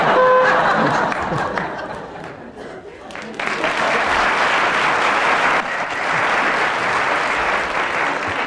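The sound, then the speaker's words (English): Audience applause after a round of a comedy panel game: loud, sustained clapping with some chatter and laughter, dipping briefly before swelling again. “Well, that spontaneous eruption of... appreciation from the audience indicates that Tim Brooke-Taylor's won that round”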